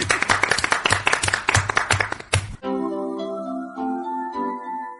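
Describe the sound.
Group clapping together in celebration of a quiz winner: many crisp, evenly spaced claps in unison for about two and a half seconds, then they stop and a few sustained musical tones take over.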